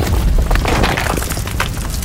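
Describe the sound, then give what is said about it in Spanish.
Loud, deep rumbling roar as the ground cracks and splits open into an immense pit of fire and lava, with crackling bursts breaking over a continuous low boom. “El suelo se agrietó y, como si fueran las fauces de un animal, se abrió una inmensa fosa con fuego y lava en su interior.”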